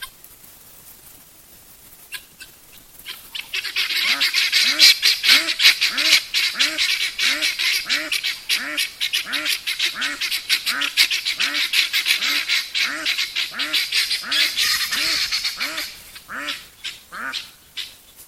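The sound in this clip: A flock of birds raising a group alarm call against a threat: loud, harsh, rhythmic cackling and honking from many overlapping voices, building quickly, holding steady for several seconds, then fading.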